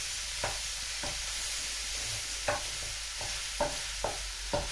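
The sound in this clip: A mixture of vegetables, meat and noodles is stirred in a sizzling pan, with a few faint scraping strokes at uneven intervals over a steady, soft frying hiss.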